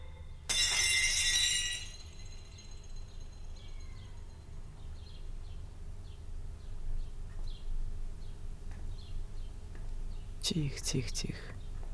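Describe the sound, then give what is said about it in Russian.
A plate dropped by a woman shatters in a bright, sharp crash of breaking china with glittering shards near the start, followed by quiet rustling and another short, sharp clatter near the end. “Женщина, видя, кто это, роняет тарелку, и та разбивается.”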